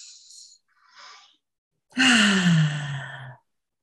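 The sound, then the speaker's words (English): Deep breaths taken to calm the nervous system: two soft, short breaths, then one loud, voiced sigh whose pitch falls as it trails away. “Take a few deep breaths.”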